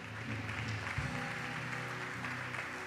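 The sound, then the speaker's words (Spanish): Applause from a Spanish-speaking church audience praising God: steady, continuous clapping with music playing underneath. “Dale un fuerte aplauso al Rey de Gloria.”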